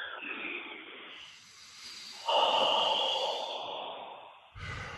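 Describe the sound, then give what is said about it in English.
Slow, deep breaths as a person relaxes during a guided exercise, with long airy hisses of inhaling and exhaling. They are fairly quiet, with a few drawn-out breaths and brief pauses between them, and no talking. “So, first I just needed to take two deep breaths.”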